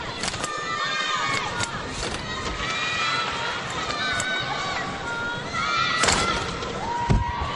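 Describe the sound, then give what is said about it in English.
Arena noise from Beth Tweddle of the UK on the uneven bars in a Beijing 2008 Olympics qualifying round: a steady crowd murmur with scattered thumps and a few sharper thuds near the end, with voices in the mix. “this is from the Beijing Olympics 2008. This is Beth Tweddle of the UK during a qualifying round, also on the uneven bars.”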